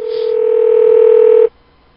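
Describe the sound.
A steady telephone line tone sounds while a call is being dialed, one continuous loud, even-pitched tone lasting about a second and a half before cutting off abruptly into near silence.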